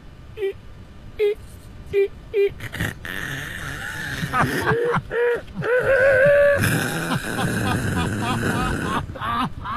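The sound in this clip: A person vocally imitates a car reverse parking and shifting down a gear: a few short, repeated tonal bursts, then longer groaning, engine-like vocal sounds that swell and waver in pitch.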